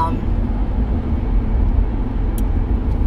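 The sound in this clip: Steady low rumble of a car driving, heard from inside the vehicle, a dense continuous road and engine drone with no distinct events.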